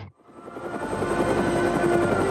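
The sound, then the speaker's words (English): Helicopter noise in a movie scene: a broad rotor roar with a faint rhythmic chop swells in after a moment of silence and stays loud and steady throughout, with no voices. “Get in the helicopter! Did he say helicopter?”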